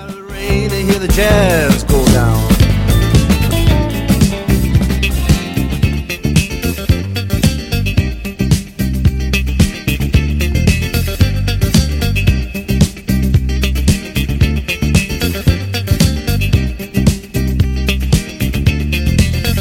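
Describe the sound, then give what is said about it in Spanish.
Disco funk song from around 1980 by a trio, played from vinyl: a steady, driving dance beat with bass, rhythmic instrumental layers and continuous loud music throughout. “sacó un tema pues disco funk muy adecuado y muy adaptado a todo el sonido funk o disco funk que existía en aquella época de los 80”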